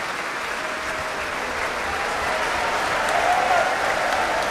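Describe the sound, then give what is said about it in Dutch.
Concert audience applauding after a performance: dense, sustained clapping that holds steady, then swells slightly louder toward the end with no break. “Groot applaus nu voor Alexei Ogrinchuk, de solo-oboist. En ook voor klarinetist Carlos Ferreira.”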